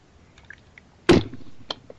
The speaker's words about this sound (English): Let me take a slurp here. Slurp, slurp,